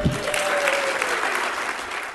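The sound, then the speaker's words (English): A crowd at a political convention in Cleveland applauds loudly after a line from Sheriff Clark's speech, with full, continuous clapping at an even level. “An applause line there for Sheriff Clark, Sean.”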